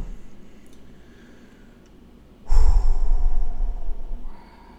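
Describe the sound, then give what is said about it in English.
A single deep, loud exhale from a breathing exercise to calm down, a breathy rush with a low rumble lasting nearly two seconds after a quiet stretch. “just doing a couple breathing exercises, right? Trying to calm down a little bit.”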